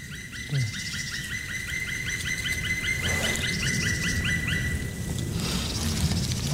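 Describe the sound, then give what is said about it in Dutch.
A bird's courtship call near a nest: a long, rapid run of repeated high chirps over a constant background hiss. “Het is een baltsroep. Ja, zo noem ik het dan. Dat doen ze toch wel vaak in de buurt van een nest.”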